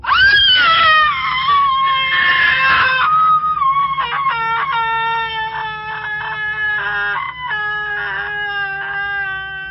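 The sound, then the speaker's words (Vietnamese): A girl screams shrilly in terror: a long, loud, high-pitched wail that wavers, then breaks into a series of shorter piercing cries that continue to the end. “Tôi bị tiếng hét thất thanh của cô bé làm cho giật cả mình”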